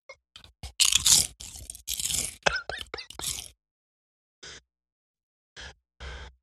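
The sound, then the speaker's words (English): Loud crunching chomps on red hot barbecue potato chips, many crisp, sharp bites packed close together at first, then a pause followed by a few quieter crunches. “I hope the microphone picked that loud ass chomp up”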